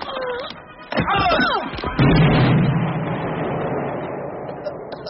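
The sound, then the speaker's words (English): A thrown hand grenade explodes in a heavy burst that rolls into a long, fading rumble. People shout just before it, and a softer thump comes a moment ahead of the blast. “I want you to drop the pin, throw the grenade.”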